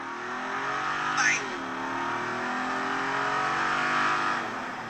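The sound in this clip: Jeep with a 392 engine revving: a loud, steady, throaty roar that swells briefly early on and builds again toward the end.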